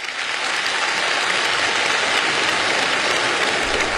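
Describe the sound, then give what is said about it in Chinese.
Sustained applause from a large assembly at a national congress opening in a great hall, a dense, steady wash of clapping at even loudness throughout with no distinct voices. “北京人民大会堂的掌声不断，梁家河村党支部会议室同样回响着热烈的掌声。”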